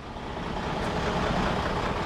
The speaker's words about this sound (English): Tanker trucks are a constant presence in a processing station. Baker points to two trucks waiting to take on their payload.